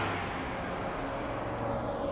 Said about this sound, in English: Sorry, heavy truck driving by.